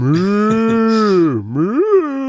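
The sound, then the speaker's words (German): Cow-like mooing in an audio drama: a single loud, drawn-out low moo that holds a steady pitch, dips, then swings upward near the end before cutting off. “klingt wie eine Kuh”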